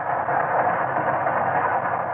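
Steady rumbling noise of a train running on a new railway, continuous and even in loudness throughout, with no distinct clanks or separate events standing out.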